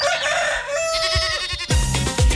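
A rooster crows, its harmonic call rising and stretching out, with a second crow starting near the end amid a few soft low thumps.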